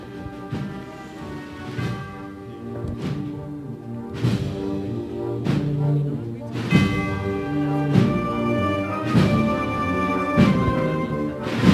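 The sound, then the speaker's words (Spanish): Campanilleros ring their bells during a Holy Week procession, with repeated bright metallic strokes at irregular intervals, each leaving a ringing, overlapping tone that keeps sounding throughout. “Y sigue sonando los campanilleros.”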